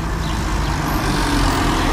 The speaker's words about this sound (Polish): bo nawet jak sobie tutaj stoimy, to inaczej słychać samochody, które jadą po takiej brukowanej kostce, głośniejsze